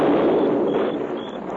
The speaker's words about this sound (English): we took some blasting powder and set a charge under those rocks. You blocked up the pass into the ravine. Now we're blasting it open again.